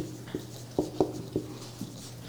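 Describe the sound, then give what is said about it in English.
Writing on a board during a sermon, heard as a few faint, short taps and scratchy strokes spaced irregularly over a steady low hum. “I'm letting you think about it while I write these up here.”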